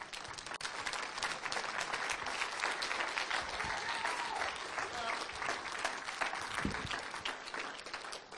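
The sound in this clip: An audience applauds to welcome a speaker to the stage, dense, sustained clapping at an even loudness for about eight seconds, with some voices mixed in among the crowd.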